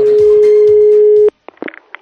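Steady telephone call tone while phoning a club member, one continuous mid-pitched note that cuts off abruptly, followed by a few brief faint sounds.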